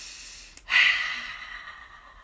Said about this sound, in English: Breathe in through your nose and out through your mouth.